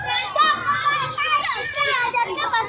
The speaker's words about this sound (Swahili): Hapa nipo mtaa wa Mwele katika manispaa ya Morogoro. Muda ninaofika hapa, watoto wanaendelea na michezo yao.